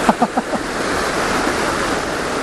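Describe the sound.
Rushing river water in Scotland makes a steady, dense roar from start to finish, with a few short voiced sounds from a person near the beginning.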